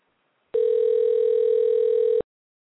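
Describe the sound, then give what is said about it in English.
A telephone dial tone sounds as a single steady, unbroken hum that starts abruptly, holds for under two seconds at a constant pitch, and cuts off sharply, alone against silence. “I'm dialing now.”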